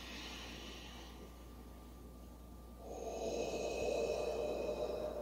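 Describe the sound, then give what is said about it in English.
A deep breath drawn in, then blown out through the mouth. A soft, airy inhale is followed after a pause by a longer, fuller exhale, faint overall. “all the way down to the bottom of your stomach, and then you breathe straight out through the mouth”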